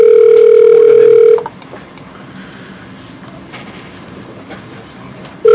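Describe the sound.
An unanswered phone call rings with no voicemail: a loud, steady ringback tone holds for over a second, then stops for a long quiet pause before the next tone begins at the very end.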